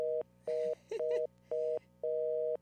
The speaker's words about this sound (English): Are we there? Are we still here? Oh, yeah. Yeah. That was just the phone. Okay, that was just the phone.